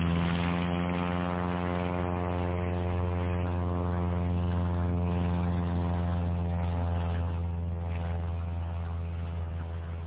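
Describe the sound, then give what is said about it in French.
A propeller airplane's engine running as the plane taxis: a loud, steady droning hum with a strong buzzing tone that holds constant throughout, alone, with no clear start-up. “Par miracle, le moteur commence à tourner. L'avion démarre et après quelques hésitations bien compréhensibles, accepte de se tourner.”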